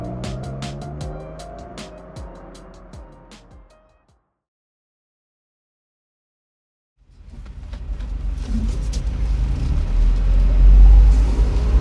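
A car pulls up to give someone a ride to Luxe Bar. After a few seconds of silence, a low engine rumble enters and grows steadily louder to the end.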